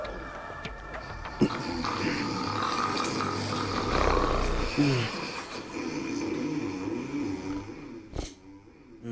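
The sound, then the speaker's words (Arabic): A man snores loudly while asleep, rough, throaty roaring breaths with grunting snorts, continuing for several seconds. “شوف كيف نايم مثل الدب وعم بيشخر.”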